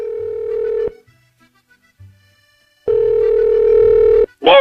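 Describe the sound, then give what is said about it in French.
Ringback tone of a call placed to a mobile phone: two long, steady, mid-pitched beeps separated by a stretch of silence, followed by a brief higher chirp at the end. “on va essayer de le joindre, on va essayer de l'appeler.”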